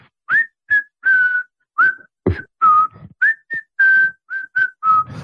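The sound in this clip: A person whistles a phone ringtone tune from a film, a clear, bright melody of many short notes and a few held ones in a steady, catchy rhythm, with no other sound around it.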